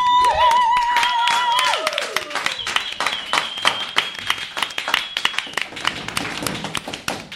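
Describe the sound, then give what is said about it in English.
A live audience bursts into applause at a recorded stage show, with many sharp claps throughout and sustained tonal sounds over the opening seconds and again mid-clip. “Ladies and gentlemen, boys and girls of the audience, please put your hands together for the live podcast recording of The Worst.”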